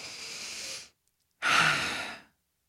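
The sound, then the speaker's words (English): Deep breath: two long, airy breathing sounds, each about a second, separated by a brief silence, soft and unaccompanied. “It's to pause, take a deep breath.”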